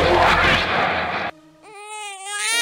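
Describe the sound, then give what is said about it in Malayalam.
A feverish baby boy cries in a high, wavering wail with a strained rising and falling pitch, following a loud burst of hiss-like noise. “കണ്ടില്ലേ, ഇന്നലെ മുതൽ മോൻ കരച്ചില് തന്നെ, നല്ല പനിയുണ്ട്.”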